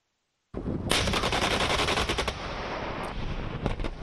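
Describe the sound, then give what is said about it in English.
Machine-gun fire from US and South Korean live-fire military exercises simulating a full-scale attack: after a brief silence, rapid automatic bursts roar out continuously, with sharper individual shots standing out toward the end. “U.S. and South Korean forces began their largest ever live fire exercises on Thursday, simulating a full-scale attack from North Korea.”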